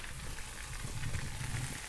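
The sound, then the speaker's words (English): Food frying in a fryer after flour dredging, on a short second fry as it turns dark brown: a steady, faint crackling hiss with no talking. “Listen to that. That is the sound of beautiful fried goodness.”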